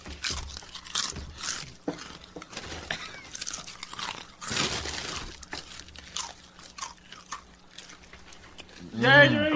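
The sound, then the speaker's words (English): Doritos Collisions Blazing Buffalo Ranch chips being eaten. Loud, crisp crunches and chews come in an irregular rhythm, with a voice briefly heard near the end. “Tonight we're eating Blazing Buffalo Ranch, Doritos Collisions,”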